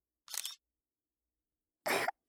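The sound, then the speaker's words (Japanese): A camera shutter fires as a posed photo is taken. Two short, crisp bursts are separated by a pause of over a second, with silence around them. “カメラ見て。はい、チーズ。”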